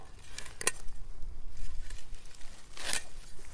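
A sickle slices through harvested plant stems in two short, rasping cuts over soft, continuous rustling.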